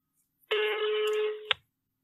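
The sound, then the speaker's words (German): A telephone tone sounds as a toll-free number is dialed: one steady electronic beep of about a second, fairly loud and alone, ending with a brief click. “Und dann rufe ich die mal an und dann mal gucken, was passiert.”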